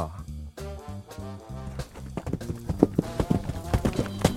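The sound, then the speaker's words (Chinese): Horse hooves gallop in a race toward the finish line: a rapid, uneven clip-clop of many hoofbeats that grows denser and louder partway through, over steady music. “马蹄声传来，尘土啊飞满天，马跑在最前面，正要冲向终点。”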